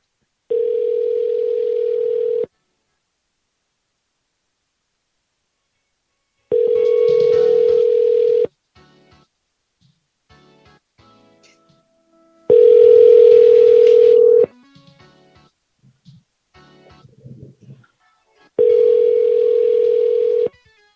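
Telephone tones while calling a number back: four steady, mid-pitched tones of about two seconds each, evenly spaced by quiet gaps holding faint clicks and small noises.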